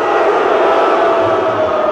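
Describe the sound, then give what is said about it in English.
Crowd shouting a mix of yays and boos when George Bush is named, a loud, continuous roar of many voices blending into one thick, unbroken wall of sound throughout. “There's some yays mixed with the boos. How many say yay Bush? How many say boo Bush?”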